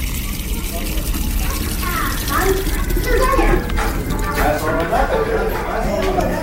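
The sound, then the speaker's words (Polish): Water runs and splashes as a ten-year-old boy fills a bucket, a continuous trickling wash heard under background chatter of voices. “Obok mnie 10-latek nabiera wodę do wiadra.”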